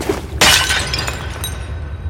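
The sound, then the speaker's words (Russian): A bowl shatters against a throne: one sharp, bright crash breaks out of a quiet start, then a tail of tinkling fragments fades slowly, with no talk. “Миска разбивается о трон.”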